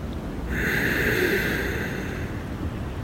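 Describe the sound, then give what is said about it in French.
A deep breath drawn in through the nose, a steady, airy hiss that starts abruptly and holds for a few seconds, fairly strong and heard alone. “Inspire profondément par le nez”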